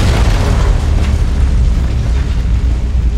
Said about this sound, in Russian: Разлитый в тоннеле взрывной газ вспыхнул мгновенно.